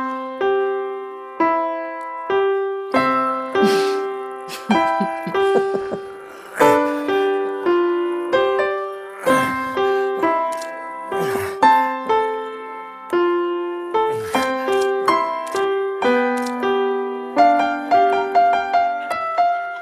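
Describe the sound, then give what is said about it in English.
Piano played by a seven-year-old child: many single notes and short note groups in a halting, uneven rhythm, each note ringing and fading before the next, with brief pauses between phrases and no voices. “I want to remind you of what a seven-year-old child sounds like when he plays the piano.”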